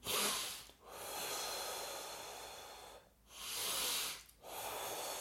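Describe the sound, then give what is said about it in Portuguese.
Slow, deep breaths, each a soft airy rush of air in long swells separated by short pauses, faint throughout. “Vamos respirar fundo.”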